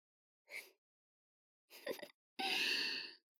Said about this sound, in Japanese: 大きなあくびしちゃった。